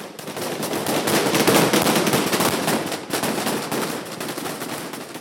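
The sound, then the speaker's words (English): Rapid gunfire from Taliban security forces shooting above the heads of protesting women in Afghanistan, loud overlapping bursts of cracking shots that swell into dense volleys, with a brief lull near the middle. “This rare show of defiance came to an abrupt halt when Taliban security forces opened fire above the women's heads to disperse them.”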